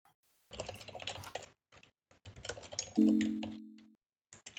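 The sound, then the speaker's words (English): Typing on a computer keyboard: soft, quick clicking in two bursts of rapid keystrokes, fairly quiet, with a brief steady hum partway through the second burst. “I'll just quickly type this.”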